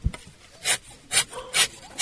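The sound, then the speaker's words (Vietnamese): Rubber-tapping knife scraping strips of bark from a rubber tree to collect latex in a plantation: three raspy scraping strokes in an even rhythm, each a short bright rasp, with quiet gaps between. “chị bóc mủ dây bám trên đường cạo, lột mủ bám trong lòng bát, rồi đưa dao cạo đường cạo mới.”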